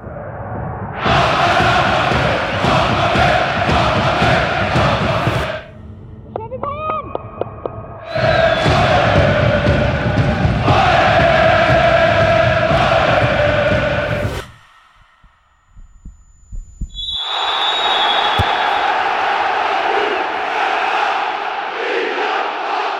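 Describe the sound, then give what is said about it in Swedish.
A large crowd roars and chants at a women's Allsvenskan football match, a dense, loud wall of cheering that comes in long surges broken by brief lulls, with a deeper drop in the noise before the roar rises again. “Det är bara att hoppas att härliga publikljudet och publikfester i damallsvenskan fortgår och kanske blir fler då nästa år.”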